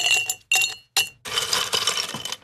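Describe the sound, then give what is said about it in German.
Ice cubes clink in a glass of Campari soda: three quick, bright clinks, then a longer, busier rattle of ice against glass. “So ein Eiswürfel.”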